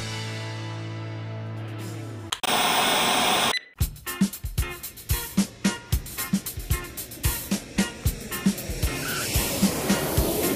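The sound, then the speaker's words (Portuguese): An intro jingle opens with a steady low tone and a brief burst of noise, then moves into a rhythmic run of sharp percussive hits that grows denser and brighter. “Roda a vinheta.”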